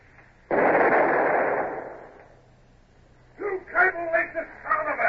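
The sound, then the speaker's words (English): A ship's long nine cannon fires from the forecastle: one heavy, sudden blast whose broad roar decays over about a second and a half. After a short lull, men's voices are heard. “Show them some shooting. Stand by, gun crew. Give me the lanyard.”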